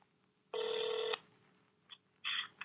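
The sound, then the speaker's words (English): A telephone call is dialed and connects, with a long, steady electronic tone, then a brief blip and another short burst of tone over faint background hiss. “I'm going to play the phone call right now because I've never got to like play, you know, sweepstakes winner here.”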